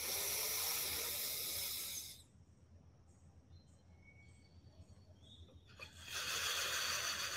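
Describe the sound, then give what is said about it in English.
A deep breath during a guided grounding exercise: a long, airy hiss of breath for about two seconds, a few seconds of near silence, then another long breath, both soft. “What I want you to do is just find that deepest breath of the day. We'll do it together.”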